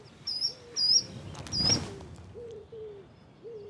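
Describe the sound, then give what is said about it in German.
A hoopoe pair calling while foraging in breeding season: soft, low hooting notes repeat at intervals, with higher thin chirps above them and a brief rustling flutter midway. “Das Paar ist eifrig bei der Nahrungssuche. Es ist Brutzeit. Wiedehopfe legen meist 5 bis 7 Eier, gerne in Baumhöhlen.”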